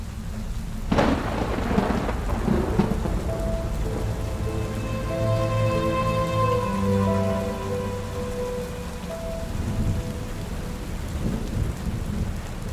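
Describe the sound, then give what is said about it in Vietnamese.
Heavy rain pours steadily at night over a busy crowded street while thunder cracks sharply near the start and rolls into a low rumble. Sustained tones hum beneath the constant dense hiss. “những cơn mưa nặng hạt bên ngoài cứ ồ ạt lao xuống dòng người tấp nập mà chẳng có dấu hiệu dừng, mang theo từng đợt sấm chớp dữ dội”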